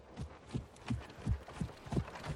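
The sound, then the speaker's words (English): Hooves of a horse pulling a trap along the outside of a wood, a faint, steady clip-clop of about seven soft beats in an even rhythm. “A horse and trap drives along the outside of the wood.”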